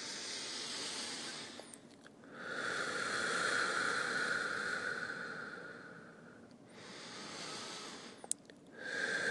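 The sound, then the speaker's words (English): Slow, deep breaths come as long, airy hissing swells of air, each drawn out over several seconds with short quiet gaps between them, soft and unaccompanied by speech. “Gosh, I just took 2 breaths and I feel great.”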